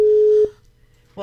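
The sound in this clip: A single steady mid-pitched telephone tone sounds briefly for an unanswered call and cuts off abruptly, followed by near-silence before another sound starts right at the end.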